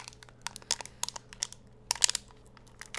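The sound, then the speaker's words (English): Plastic wrapping peeled off the twist-top lid of a Mega Energy drink gives a quiet run of sharp crinkles and crackles that bunch up toward the end. “First, we take off the top lid. Then we peel away the plastic wrapping as such.”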